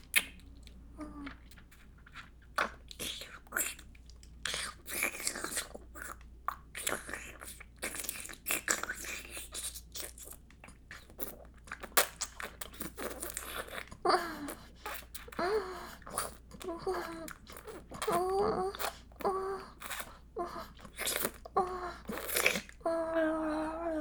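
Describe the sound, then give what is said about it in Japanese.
Licking a finger produces many soft, wet mouth smacks and slurping clicks in an irregular rhythm. The sounds are quiet, close and continuous over a faint background hum. “あなたの指だと思って舐めるよ。”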